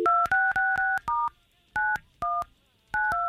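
Touch-tone telephone dialing as a call is placed: a quick run of crisp two-tone beeps, some bunched tightly together and others separated by short pauses, each ending cleanly with no voices.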